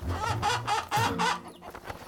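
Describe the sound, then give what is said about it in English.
Chickens cluck in a village, four birds handed over as a gift: a quick run of loud, throaty clucks and squawks, several in a row, over a busy, noisy background. “Before you go, take these four chickens as my gift to you.”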